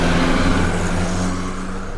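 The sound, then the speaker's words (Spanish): A white Volkswagen car arrives with a steady, low engine hum carrying a few tonal harmonics, easing slightly in level toward the end, with no voices. “ahí viene. Es un carro Volkswagen blanco”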